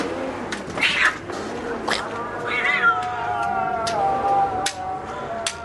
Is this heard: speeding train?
no